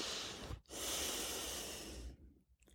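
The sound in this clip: Deep breathing during a guided tense-and-relax relaxation exercise: a short breath, a brief pause, then one long, soft, airy breath lasting over a second, heard alone without talk.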